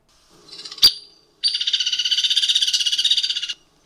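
Woodpecker whinny: a single sharp high note, then a rapid, steady-pitched rattle of many evenly spaced high pulses lasting about two seconds, clear and alone.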